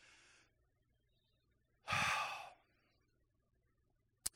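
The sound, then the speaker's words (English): A church audience takes one deep breath together, heard as a single breathy rush lasting under a second against quiet surroundings. A brief murmur comes before it, and a short sharp click comes near the end. “can we all just do this together? Can we all just take a deep breath?”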